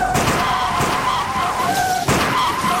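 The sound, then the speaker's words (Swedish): Cars in a convoy braking hard and skidding, with loud screeching tire squeal that comes in overlapping waves over a dense roar of engine and road noise. Sharp bursts of noise punctuate the screeching. “Så plötsligt, på en given signal, tvärnitar varannan bil i karavanen.”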